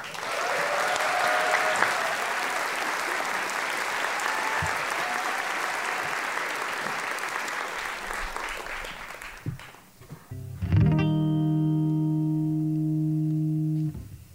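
Loud, sustained audience applause greeting a singer-songwriter and drummer taking the stage, giving way after about ten seconds to a steady held instrument tone with strong harmonics.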